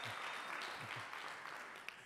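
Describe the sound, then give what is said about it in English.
Audience applause at a church ministry gathering, a dense, steady patter of many hands clapping that tapers off slightly toward the end. “You can clap to that. It's okay. There we go.”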